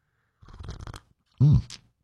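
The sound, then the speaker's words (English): Slurping from a freshly refilled cup of hot coffee in the morning, two short bursts: a longer airy sip followed by a louder, brief slurp. “We call it the morning slurp, and I just refilled my cup. So this one's actually going to have a little heat to it.”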